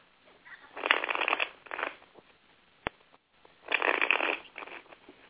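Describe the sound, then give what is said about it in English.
Playing cards are shuffled in the hand during a card reading in two main bursts of soft, riffling rustle, with a shorter flutter and a single sharp tick between them, all fairly faint. “You got money cards jumping out of my hand.”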